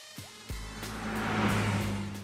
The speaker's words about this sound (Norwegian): Hør på bilen din